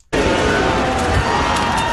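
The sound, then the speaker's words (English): Crowd cheering from Canadian fans during Canada's first FIFA World Cup knockout stage match, against South Africa: a loud, sustained roar of many voices that starts abruptly after a brief silence and holds steady throughout. “And hundreds of fans across the country are cheering as Canada's first FIFA World Cup knockout stage match is now underway.”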